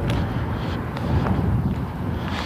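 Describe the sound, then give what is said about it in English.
Outdoor wind buffets the microphone as someone steps out under a dark cloud, a loud, continuous low rumble that swells and eases slightly without pause. “Oh, Lord, and I just stepped out into the wind.”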